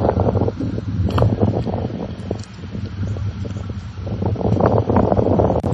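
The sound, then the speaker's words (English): Wind buffets a microphone outdoors, making a steady low roar that swells in gusts, eases briefly in the middle, then builds again to full strength. “The wind is really something today, so we'll work on that.”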